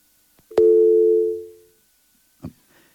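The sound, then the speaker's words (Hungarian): A telephone line tone during an incoming call: a click, then one steady mid-pitched tone that holds for about a second and fades, followed later by a single short click. “látom, hogy van egy bejövő hívás”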